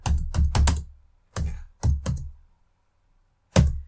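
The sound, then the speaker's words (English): Keystrokes on a computer keyboard, typed during a video game session: short bursts of crisp clicks separated by brief pauses, ending with a lone tap after a longer gap. “Continue. I gotta type continue.”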